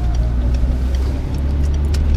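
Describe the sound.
Steady low rumble of a car driving through the city of Zürich, with engine and road noise holding at an even, fairly loud level throughout and no talk.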